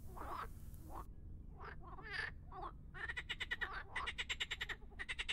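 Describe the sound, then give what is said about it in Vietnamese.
Many frogs, larger than a hand, croak while crawling over each other in a grave pit: scattered calls first, then rapid pulsing trains of croaks, fairly faint, with no voices. “Số lượng ếch nhiều đến mức mà chúng phải lúc nhúc bò lên nhau, chính vì thế mới phát ra những âm thanh nhóp nhép nhùng nhúc”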